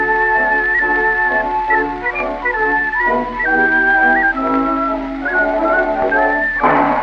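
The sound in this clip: A melody is whistled on a small, cheap toy whistle over band accompaniment, with bright, high notes stepping up and down in a lively, steady tune that stays loud throughout.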